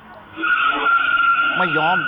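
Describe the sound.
Tires skidding as a lowered car reverses after ramming another vehicle: a sustained, high rubbery squeal that begins abruptly and holds steady, with engine noise and an excited voice talking over it.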